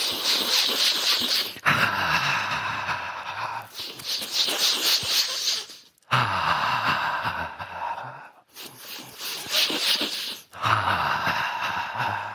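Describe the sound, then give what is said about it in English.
People breathe in through the nose during a guided breathing exercise while rubbing the sides of the nose at a retreat session. The long, airy breaths are loud and close, coming in a slow, steady rhythm with brief pauses between them. “Take your hands like this and then rub sides of the nose and breathe in.”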